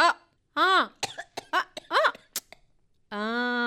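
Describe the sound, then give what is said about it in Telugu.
Coughing from someone being urged to take cough medicine before a meal: a few harsh, voiced coughs in short bursts, followed by a sustained voiced sound. “నువ్వు భోజనం చేసిన దాకా ఆగమని నీ దగ్గుకు చెప్తానుండు.”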